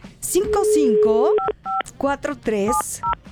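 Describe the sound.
Telephone keypad tones sound as a number is dialled: a few short, clear electronic beeps are interleaved with lively talking.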